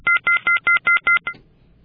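Rapid, evenly spaced electronic two-tone beeps sound on a telephone line after a call is cut off. Seven short bursts of equal pitch come in a quick, regular rhythm, the last one weaker, and then the line falls quiet.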